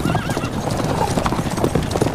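A horse gallops away with loud, rapid clip-clopping hooves in a steady driving rhythm throughout, and a brief whinny rises near the start.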